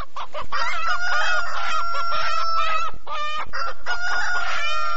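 Loud, continuous clucking and drawn-out calls from chickens kept for eggs by a rural village household, with several birds overlapping in sharp clucks and sustained harmonic cries, heard alone.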